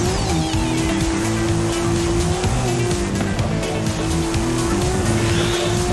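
Engine roar and squealing tires come from a car in a racing video game: a loud, unbroken drone with a steady tonal whine and rough skid noise running throughout.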